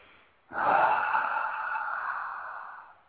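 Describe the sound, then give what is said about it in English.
A single deep breath: a sudden breathy rush starts sharply and is sustained for about two and a half seconds, then slowly fades. It is heard alone, with no talking. “So, let's take a deep breath and feel some good feelings.”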